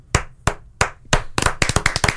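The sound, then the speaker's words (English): Hand clapping: four slow, evenly spaced sharp claps, then a quicker run of claps to the end, with no voices. “full round of applause”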